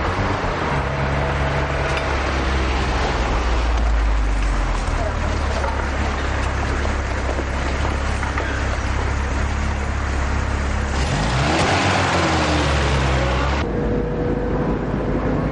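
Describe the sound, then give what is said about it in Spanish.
A car pulls up on a street and drives off again, its low engine rumble and broad road noise running steadily, then swelling and shifting near the end as it pulls away. “De pronto un vehículo llega y ambos se montan en el asiento trasero.”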